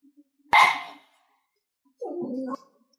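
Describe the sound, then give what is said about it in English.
A dog barks in the distance, with a sharp first bark and, after a pause, a lower and more drawn-out second call, both set against near silence. “Somewhere a dog barks.”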